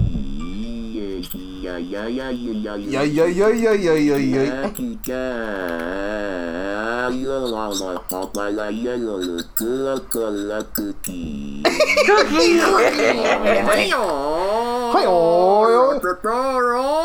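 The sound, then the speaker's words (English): A Pink Trombone vocal tract synthesizer produces warbling, artificial vowel-like tones. Its pitch slides continuously up and down, broken by abrupt cuts and bursts of brighter, noisier sound. “Give me the pink trombone. Close his throat. You don't know how to handle the pink trombone like I do.”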